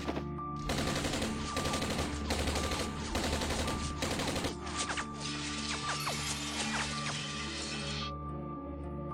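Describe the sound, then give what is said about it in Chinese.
Dense automatic gunfire from MP5 submachine guns raking a school corridor as dozens of glass panes shatter. Rapid bursts of shots give way to a sustained crackling barrage mixed with breaking, crashing glass. “在他扑倒杨子怡的一瞬间，密集的子弹如暴雨一样射向二人所在的走廊上，几十面玻璃刹那间崩碎分离”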